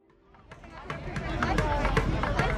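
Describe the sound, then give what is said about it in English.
Crowd noise outside a gymnastics tour event in Houston, Texas: a dense babble of many voices and bustle swells from faint to steady and fairly loud over a couple of seconds. “This was the sound outside of the Gold Over America tour when it stopped in Houston, Texas.”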